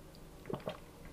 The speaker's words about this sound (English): And then imagine, and I'm going to drink a little bit of water here.